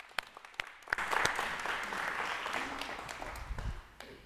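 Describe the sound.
Congregation applause welcoming a speaker to share a testimony in church: a few scattered early claps, then sustained clapping that swells and holds before tapering off near the end.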